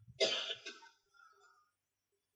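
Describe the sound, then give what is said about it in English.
A single cough: a rough, throat-clearing burst with a short raspy tail, followed by near silence and a sharp click at the very end. “I apologize, still coughing here.”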